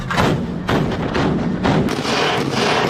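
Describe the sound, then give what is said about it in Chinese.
A warship's main gun fires at aerial targets, with several heavy, booming thuds in quick succession blending into a continuous loud rumble. “主炮跟踪锁定目标方位，对空中目标实施自由抗击。 敌机 B 两架向我进飞， 开火！”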